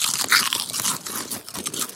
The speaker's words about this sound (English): now I've passed out the chips and we're going to sample the one in our right hand first.